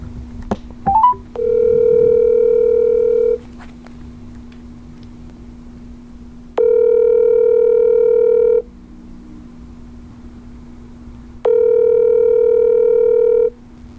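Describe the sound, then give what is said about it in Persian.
Telephone ringback tone while placing a call: three steady electronic beeps of about two seconds each, separated by longer pauses, over a constant low hum, with no talking. “میریم که باهاشون تماس بگیریم”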